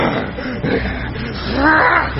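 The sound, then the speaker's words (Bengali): A beast's horrible scream as it sinks beneath red river water during a battle between wolves and wild dogs: one loud, harsh, roaring cry held throughout, gravelly and sustained. “জন্তুটা এবার একটা বিভৎস চিৎকার করে লাল জলের নিচে হারিয়ে গেল।”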